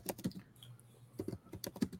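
Quick typing on a computer keyboard as notes are written down. Many light, uneven keystrokes clatter in short bursts with brief pauses between them, and no voices are heard.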